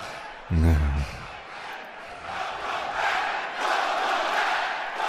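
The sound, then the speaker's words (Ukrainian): A wrestling crowd at a Monday night RAW event chants a welcome back to a returning figure. A brief loud voice sounds at the start, then the massed crowd voices swell in rhythmic surges. “З поверненням скандують глядачі.”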